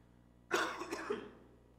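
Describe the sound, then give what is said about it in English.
A person's coughing fit: a few harsh, throaty coughs in quick succession, moderately loud against a quiet background, with no speech. “Pardon me. I swear I'll be over this cough by winter.”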